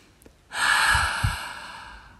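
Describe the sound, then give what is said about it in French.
A deep breath during a calming breathing exercise, drawn in through the nose and released through the mouth: one long, airy rush that swells quickly, holds steady and slowly fades, with no talking. “venir gonfler ton ventre, tes poumons, ta cage thoracique et à expirer par la bouche. À nouveau.”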